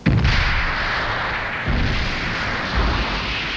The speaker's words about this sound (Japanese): 水中衝撃波。爆発が近いわ。